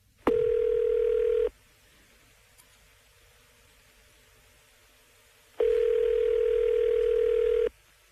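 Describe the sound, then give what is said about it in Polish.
Telephone dial tone while placing a call: two long, steady buzzing tones, each lasting one to two seconds, with a clear silent gap between them. “Pod nieobecność Françoise Vittel mnie polecono, żebym zadzwoniła. Miałam poprosić o jak najszybsze przysłanie technika.”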